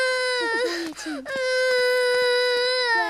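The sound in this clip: A child crying with a loud, sustained, high wailing that wavers in pitch, broken by a couple of brief sobbing catches before the steady wail resumes.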